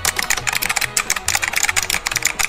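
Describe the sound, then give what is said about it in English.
Rapid typing on a computer keyboard, many quick plastic keystrokes clattering in a steady, uneven rhythm. “No, I won't say it on the air. I'll just type it.”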